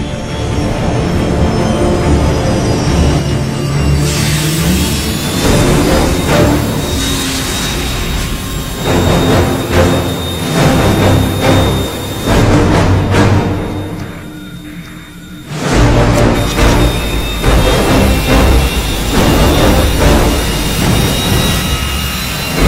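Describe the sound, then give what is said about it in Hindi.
A backup engine starting up: a loud, sustained roar with grinding, squealing tones that shifts in strength, drops briefly near the end, then surges back to full power. “Backup engine start हो गया है।”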